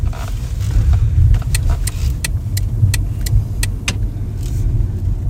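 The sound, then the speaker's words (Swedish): A car drives past a white house on a residential street, its low engine and road rumble steady throughout, with several evenly spaced sharp ticks in the middle. “Här kör vi förbi nu där Benjamin är uppväxt”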